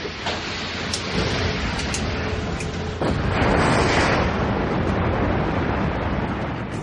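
Torpedoes fired from tubes one and two of a submarine holding 30 metres depth: a continuous dense, roaring watery rush that surges louder about midway and stays thick to the end, with no voices.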